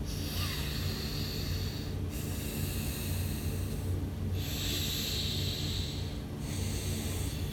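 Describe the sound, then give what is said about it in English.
Breathing in and out through one nostril as a breathing exercise: a continuous, soft, airy hiss with brief dips about every two seconds as inhale and exhale alternate. The rhythm is steady and no one talks. “With the right nostril, you breathe in and out, then you breathe in and out with the left nostril. Let's try that together.”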